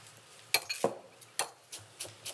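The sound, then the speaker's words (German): A knife chops fresh coriander in a few sharp, irregular taps, fairly quiet, over a soft low background hum. “Dann habe ich jetzt hier erstmal den ersten Schwung drin. Schneide ich schon mal ein bisschen Koriander.”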